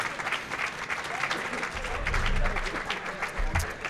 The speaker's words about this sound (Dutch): applaus voor de pipi-parels.